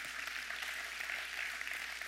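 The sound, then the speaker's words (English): A faint round of audience applause, heard as a soft continuous patter of clapping with no distinct single claps, steady from start to finish. “Give everybody a round of applause anyway.”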